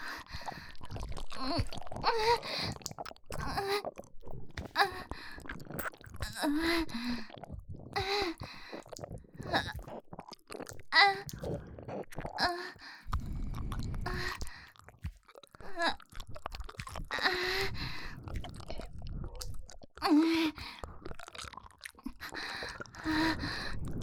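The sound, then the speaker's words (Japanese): Chewing and biting of a rare mushroom, with many soft, moist crunches and squishy mouth sounds coming in irregular bursts, fairly quiet and close. “次いつ出会えるかわからないから、今のうちにたくさん味わっておかないと。幻のキノコ。”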